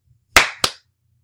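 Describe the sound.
Two sharp hand claps, loud and crisp, the second slightly softer with a short ringing tail, heard alone against silence.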